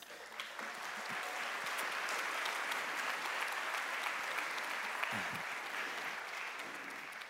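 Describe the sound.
Audience applause welcomes a panel of moms onto the stage at a church service, a steady, full wash of many hands clapping for the whole stretch.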